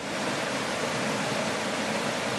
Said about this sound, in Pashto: یو ابشار دی په کوم کې چې د واوري ویل کې دو اوبا د دنګ غرنه راځي او په لار اور سره د چینو پاکي اوبه هم شامل دي او د پرسکونه شور سره په تیزی د شنګرو ډنټا را پریوزي